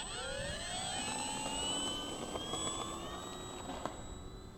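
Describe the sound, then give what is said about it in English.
A Mustang aircraft engine roars as the plane takes off in a flight simulator video game: a continuous loud drone with whining harmonic tones that climb gradually in pitch early on, with no talk. “Take off into the wind. Yep, I'll take off right now.”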